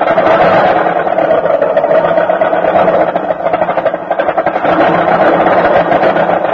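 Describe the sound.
A car engine bucks and sputters through a cold winter morning start, a loud, rough, continuous churning that pulses unevenly from beginning to end.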